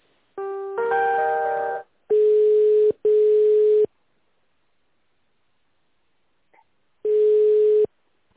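Telephone tones during call connection: a short buzzy chord, then three long steady mid-pitched beeps, the first two close together and the third after a long silent pause.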